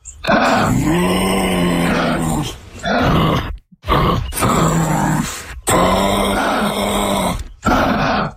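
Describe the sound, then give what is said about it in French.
A kangaroo calling with deep grunts and throaty vocalisations: several long, loud, harmonic grunting bursts separated by short pauses, with no talk over them. “C'est silencieux, mais ça peut faire des vocalises et des grognements. Alors en exclusivité, voici le cri du kangourou.”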